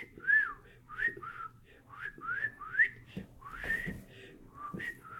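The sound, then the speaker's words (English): A person whistles a series of short, bird-like chirping notes that swoop up and down in pitch, fairly faint, in a loose irregular rhythm with a few soft low thumps between phrases. “So I started whistling. I would go, I did whistle pretty good in those days. I go,”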